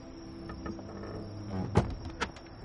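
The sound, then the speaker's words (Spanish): A wooden latrine door being entered and shut: faint creaks and shuffling, then two short wooden knocks as the door closes, over a quiet background hiss. “Se acerca lentamente a la letrina. Entra y cierra la puerta.”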